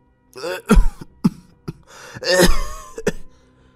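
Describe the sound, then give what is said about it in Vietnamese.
A man clears his throat in a few rough, voiced bursts with short hacking coughs between them, loud and alone. “Tiếng hắng giọng của thầy Lã thời gian ngoài khiến cho bà Hoài lập tức dừng suy nghĩ.”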